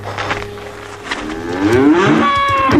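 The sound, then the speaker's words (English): A calf that has just got back on its feet moos loudly, a drawn-out harmonic bellow that climbs in pitch and then holds, heard alone without talk. “the calf's on her feet. What did you do to that calf?”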